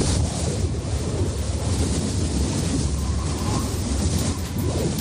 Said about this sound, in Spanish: Así suena este viento que, como te digo, puede llegar hasta 100 kilómetros por hora en la sierra.